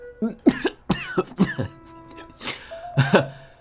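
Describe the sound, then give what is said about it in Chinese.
A man coughs hard after choking on tea in a period audio drama: a few harsh, spluttering coughs and throat-clearing bursts in quick succession. “西门要被茶水呛得直咳嗽，摆手。”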